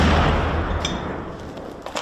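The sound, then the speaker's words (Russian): Artillery fire lands in a city under shelling. A loud, heavy boom rumbles and slowly fades over about two seconds, with a few faint knocks near the end. “В этом случае это были не дроны, да, это артиллерия.”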